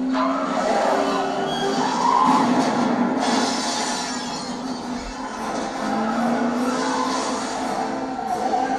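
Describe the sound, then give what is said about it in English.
Car chase in a film, heard as a dense, continuous roar of engines and rushing vehicle noise with rumbling texture throughout. The level is loud and sustained, with no clear breaks. “So now there's another car chase.”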